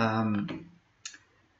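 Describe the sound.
A single short, crisp mouse click sounds just after a person speaks, standing alone and faint against the quiet.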